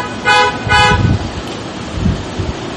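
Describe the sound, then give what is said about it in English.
Car horns honking during a sermon: two loud, short horn blasts in quick succession, each a bright brassy tone, over a low rumble that continues after them. “Let's get some honks on that.”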